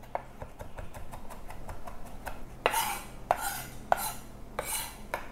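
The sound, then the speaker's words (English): A knife finely mincing garlic on a cutting board: a steady run of many light, rapid taps, then a few louder, sharper chops near the end. “Now it's not so pleasant biting down onto chunks of garlic, so I'm mincing this pretty finely.”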